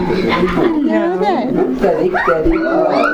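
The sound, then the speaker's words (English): Dogs bark, yip and whimper at a visitor, short barks and whiny cries mixed with people talking close by. “This is the one that barks. Is that one that barks? Yeah. Oh. They're barking at you.”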